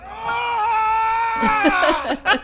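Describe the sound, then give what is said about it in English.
Loud, drawn-out wail from a man in a commercial, a steady sustained cry lasting more than a second, followed by several short vocal bursts. “I love his bellow. That is a hilarious wail at the end.”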